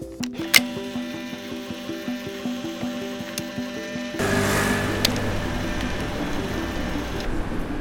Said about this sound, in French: Chaque fois que vous entendez le bruit de mon appareil Polaroid, c'est-à-dire que j'ai pris une photo, regardez mon cahier.